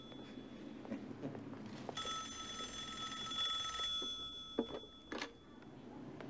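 A phone rings as a call comes back, giving one electronic ring of about two seconds. It is faint over low background noise, with no talk.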